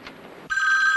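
A telephone rings: a quiet hiss gives way halfway through to a bright, steady electronic ring that carries on to the end.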